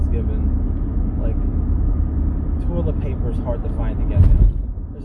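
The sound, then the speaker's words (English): Steady low engine and road rumble from inside a car driving home past a mall, continuous and fairly even throughout. “Like, I'm just driving home and you hear the driving.”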